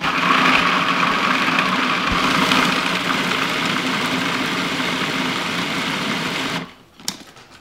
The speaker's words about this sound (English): All right, got 1/2 the chickpeas in there because my food processor can't hold them all.